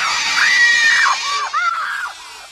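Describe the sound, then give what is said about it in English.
A woman screams in shrill, high, drawn-out cries: one long wail, then several shorter rising and falling shrieks. The screams are loud and heard alone. “She screams 71 times.”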